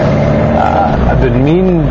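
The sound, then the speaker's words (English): A car driving through the streets of Sri Lanka gives a low, constant engine and road rumble under a man talking over it. “I am coming to you from the island streets of Sri Lanka. Yes, I'm driving right now.”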